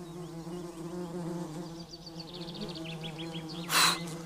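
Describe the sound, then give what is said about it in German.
Wasps buzz around leftover fig bread on a garden table, a steady, wavering low drone that carries through the whole clip. “Die Wespen stürzen sich auf die Reste des Feigenbrots.”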